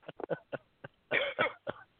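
Coughing and throat clearing from a tickle in the throat: many short, dry coughs in an uneven rhythm, with a couple of longer, harsher rasping clears in the middle.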